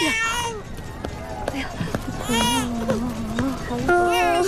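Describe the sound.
A baby crying in wavering, high-pitched wails amid adult voices and background bustle, loud and broken into several bursts.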